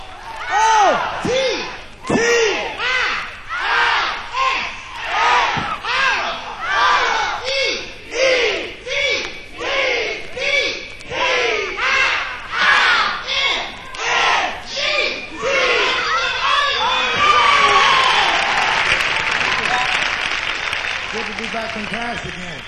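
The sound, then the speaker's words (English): An audience at a live music show welcomes a performer with loud crowd noise. First come rhythmic bursts of shouting and cheering, then a dense wash of applause and cheers. “We want you to welcome him with a big, big round of applause.”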